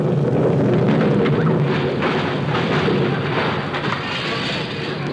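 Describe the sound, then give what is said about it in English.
A time bomb explodes as a radio comedy sound effect: a loud, deep boom that swells into a long rumbling roar and slowly fades. “Oh, darn it. There goes that time bomb. I must have said it a little too early.”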